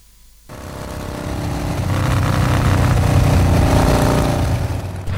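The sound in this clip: A new motorbike's engine starts after a brief silence and settles into a steady, rumbling drone that swells gradually and stays loud to the end.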